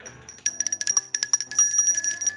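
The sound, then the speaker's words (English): A small bright bell rung rapidly many times in quick succession, each strike ringing out with a high, sustained metallic tone that overlaps the next, heard on its own. “Ring the bell.”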